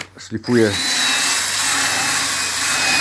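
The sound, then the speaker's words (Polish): A power tool sands wooden boat stringers in a barn, smoothing them before plywood planking goes on. After a brief start-up, it settles into a steady, loud, hissing whine that continues to the end. “szlifuję wzdłużniki, przygotowuję je do poszywania sklejką.”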